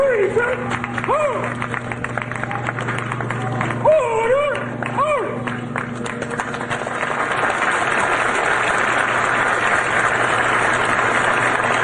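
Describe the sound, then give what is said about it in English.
Hundreds of police officers applaud a detective as he leaves a hospital in New York. Voices and cheering sound over the first half, then dense, steady clapping carries on to the end. “This is the reception that he received as he left the hospital yesterday. The New York City Police Commissioner was among those hundreds of police officers to welcome him as he was leaving the hospital.”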